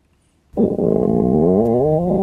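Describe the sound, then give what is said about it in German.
A hungry stomach growls in a loud, drawn-out gurgling rumble that bursts in after near-silence and wavers up and down in pitch for nearly two seconds. “wieso der Magen überhaupt knurrt und vor allem auch, wie er das macht?”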